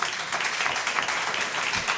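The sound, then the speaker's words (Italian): Audience applause welcomes a jazz group of voice, synthesizer, trombone, electronics and piano onto a concert stage: a steady, dense wash of clapping that holds an even level from start to end. “E allora accogliamo sul palco con un bel applauso il progetto The Girl Who Cried Champagne”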